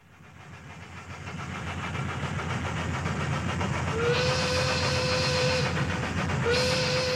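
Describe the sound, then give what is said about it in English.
Steam locomotive running through the American South in summer, with a steady broad rumble that builds and holds loud. Two sustained whistle blasts cut in near the end, the first long and the second shorter. “Summertime 1886. A locomotive winds through the steamy American South, bound for Baltimore, Maryland.”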